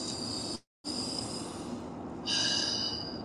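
Deep breathing, a steady airy rush broken by a brief cut, then a louder breath toward the end.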